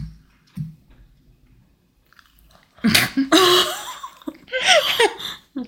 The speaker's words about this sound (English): I just spit marshmallow everywhere because the noise the marshmallow makes going in your mouth.